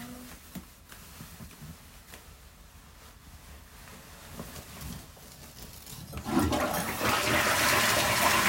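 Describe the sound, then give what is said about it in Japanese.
A toilet is flushed after a stretch of quiet, faint shuffling. Near the end the water bursts in with a loud, rushing gush and keeps running steadily. “うんちくんバイバイ、流してきます。”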